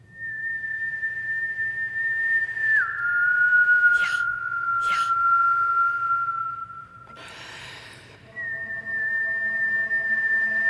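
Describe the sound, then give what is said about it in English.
A person whistles a sustained, steady mid-pitched tone that dips slightly in pitch early on, with two brief breathy puffs over it, a short noisy burst, then a brighter, richer whistled tone at the end. “and I started whistling.”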